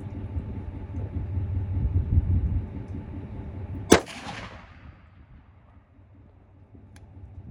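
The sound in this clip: A single rifle shot fired while zeroing at 100 yards: one loud, sharp crack with a short decaying tail, landing midway through a steady low rumbling background that grows quieter after the shot, with no voices.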